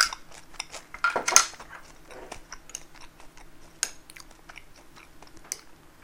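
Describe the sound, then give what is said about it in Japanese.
Crunchy chewing of toasted French bread: many faint, irregular crackling bites and mouth clicks, with a louder crunch near the start. “このフランスパンうまいよね僕はフランスパンがほんと好きだなあ”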